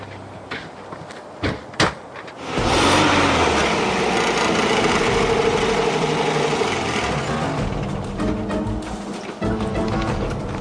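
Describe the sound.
A car engine runs with a steady, fairly loud drone and a faint hum, after a few sharp knocking thuds at the start.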